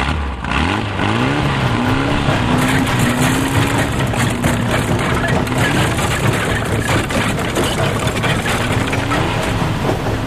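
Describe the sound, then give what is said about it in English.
A rock crusher roars as it destroys a violin, a loud, continuous engine-like drone with a rising then steady pitch over dense grinding noise, running unbroken throughout. “That didn't last very long in the rock crusher.”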